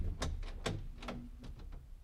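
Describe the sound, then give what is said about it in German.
Pounding on a door as police demand entry: a quick series of faint, sharp knocks and thumps in irregular bursts, with a low background hum. “Zerschlag mir nicht die Tür!”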